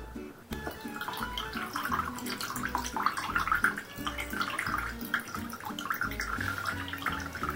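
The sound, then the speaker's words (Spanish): Water mixed with yerba drains through a filter into a container, a continuous trickling and splashing flow that stays fairly even in loudness from start to finish. “Ponemos la mezcla sobre el filtro. Y dejamos que se filtre.”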